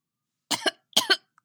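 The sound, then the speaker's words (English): A man chokes and coughs while struggling to get his breath back: two brief, rasping coughing bursts, each with a double catch, followed by a faint breath. “She watched as he choked with mild concern. "Do you need some help?" she asked, as he tried to regain his breath”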